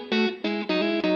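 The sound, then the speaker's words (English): An electric guitar on the neck pickup of a modified Telecaster plays four chords alone in a steady rhythm, each ringing warm and full with rich harmonics. “when I've got the neck pickup on, which sounds like this,”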